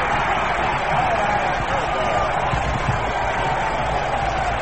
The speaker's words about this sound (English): this big crowd, a standing ovation for Kovac for setting the new World Series strikeout record